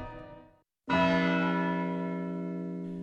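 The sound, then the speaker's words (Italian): A church bell strikes once to mark one o'clock, a single loud, resonant stroke whose rich ringing tone slowly fades over the following seconds. “Suona l'una.”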